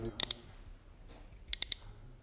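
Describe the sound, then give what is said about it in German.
Sharp mechanical clicking of a revolver cylinder being spun, two quick bursts of three crisp ratchet clicks each, separated by a quiet pause. “Ich drehe also jetzt den Trommelzylinder. Bitte halten Sie ihn doch hier ans Mikrofon, damit es alle hören können. Ja, gut. Ich drehe nun den Trommelzylinder ein paar Mal herum.”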